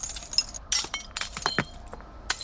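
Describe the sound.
Glass fluorescent tubes and light bulbs at a large dump estimated at about 600 tonnes give off many faint, irregular clinks and chinks of glass knocking together, some sharper than others.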